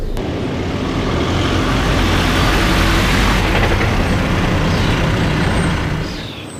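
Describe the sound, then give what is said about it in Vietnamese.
A bus pulling up and coming to a stop: a loud, steady rumble of engine and road noise fills several seconds with a broad hissing wash, then eases off near the end. “Dừng xe lại đi.”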